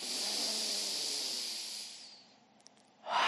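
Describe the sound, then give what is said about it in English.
A long, deep, full breath drawn into the belly and chest together. A steady, airy hiss lasts about two seconds, then fades to near silence before the next breath starts. No one speaks. “that to me feels like a very long, deep, full breath, just belly and chest together.”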